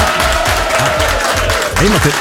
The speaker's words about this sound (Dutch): Ja, toch een klein applaus.